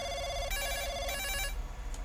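A telephone rings in two bright, harmonic bursts, each about half a second long. A steadier, lower tone comes before them, and a brief sharp sound follows at the end. No one speaks.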